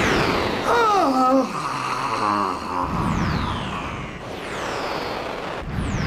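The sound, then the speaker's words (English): Fire squirts from a demon's blazing eyes against a magic shield in a fantasy tale: a sustained rushing roar with several falling whistling sweeps, and voices heard early on. “Its eyes! They're starting to blaze! And will shortly squirt fire. Brace yourself for the shock.”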